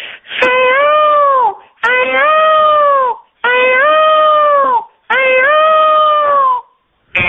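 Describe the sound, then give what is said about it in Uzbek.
A peacock calls in long, loud, wailing cries: four drawn-out harmonic calls, each rising slightly and then sagging in pitch, separated by short pauses, with the start of a fifth at the very end. “Va tovus degan qush bo'ladi, rang barang patlardan iborat. Juda go'zal, juda go'zal qush, aha. Ham chiroyli qush, shu tovusini chiqaradigan ovoz shunday bo'lar ekan.”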